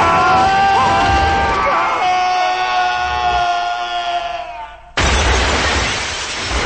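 A car crashes through the glass wall of an office building during a high-speed chase, producing a loud, continuous roar of smashing glass and grinding noise, then a sharp fresh burst of crashing near the end.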